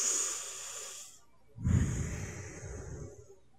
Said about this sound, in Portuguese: Então calma, cara. Respira. Respira comigo aqui, ó.